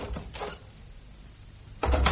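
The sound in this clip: A window being opened in a house: a rattling scrape at the start, a quiet stretch, then a louder scrape and thump near the end.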